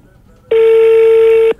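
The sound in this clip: A single steady telephone tone sounds for about one second while a call is placed to a municipal cemetery office. The beep is loud, even and electronic, with a clean pitch that starts and stops abruptly.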